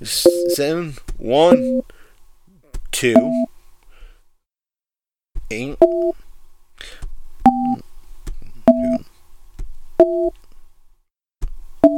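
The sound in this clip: Touch-tone dialing of a phone number into a conference-call hotline: five short two-tone beeps at a slightly uneven pace, following a stretch of talk.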